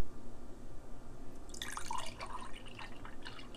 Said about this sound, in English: That is the sound. I don't know if y'all heard that or not, but that's the sound of me pouring a glass of juice here in the kitchen